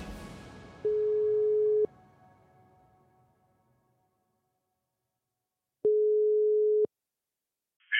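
Telephone ringback tone on an outgoing call to an unknown number: two long, steady, mid-pitched tones, each about a second, separated by a long silence.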